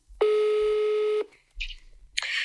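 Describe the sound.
A telephone call being dialled: one steady electronic tone holds for about a second, then a couple of short, noisy bursts follow.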